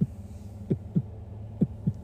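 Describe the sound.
Heartbeat sound effect: low, muffled thumps arriving in a few lub-dub pairs over a steady low hum, with no voices.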